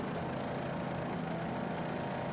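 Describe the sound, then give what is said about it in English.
Steady engine roar from an offshore racing powerboat, a 27-foot Activator built on Long Island with a 1,550 hp Vortech inboard, holding an even, continuous drone with no breaks or talk. “Activator built on Long Island. Your leader right now. Super V lighted. This boat powered by Vortech, 1,550 horsepower. Vortech inboard.”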